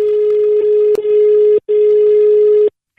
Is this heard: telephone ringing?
yes